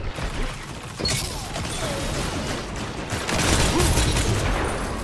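Golden Gun firing in Destiny 2: dense gunfire and explosive bursts blend into a rough, sustained roar that grows louder toward the end.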